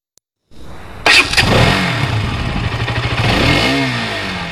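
A motorcycle engine starts with a sharp burst, then revs loudly with a low, throbbing note that wavers and swells.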